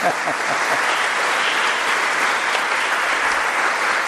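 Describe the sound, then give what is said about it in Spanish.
Applause from an audience in a cathedral during an Easter vigil Mass, greeting people about to be baptized: a thick, even wash of many hands clapping at a steady level for several seconds. “Otro aplauso para ellos.”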